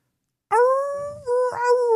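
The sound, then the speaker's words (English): A person imitates a dog's howl with one sustained, wavering, tonal cry. It lasts about a second and a half, dips briefly midway and then steadies again. It is loud and heard alone. “Oh, this is a horrible howl. Sometimes I howl for donations.”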